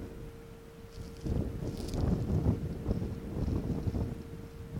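Wind blowing across a hilltop near a radar station, a low, rumbling buffet on the microphone that swells after the first second and stays steady, with a faint constant tone running underneath.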